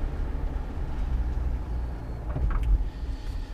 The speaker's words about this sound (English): driving around Manhattan at this hour is always kind of weird